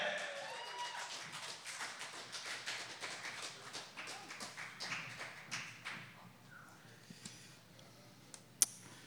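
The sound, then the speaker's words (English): Audience applause at a poetry slam, a faint, busy patter of claps with scattered sharper hits that thins out, ending with one loud isolated tap. “Keep the applause going.”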